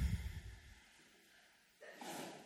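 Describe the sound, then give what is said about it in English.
Slow, deep breathing in a guided meditation: a soft, airy breath swells toward the end, after a brief low rumble at the start. “Shall we breathe together?”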